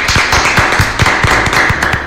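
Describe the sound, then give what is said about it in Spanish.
Applause rises for Santiago Peralta, praised for promoting Ecuadorian cacao. The clapping is loud and steady, with a regular, rhythmic patter of hand strikes. “Santiago Peralta, un aplauso para él. Un aplauso.”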